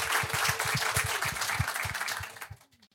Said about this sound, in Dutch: Applaus.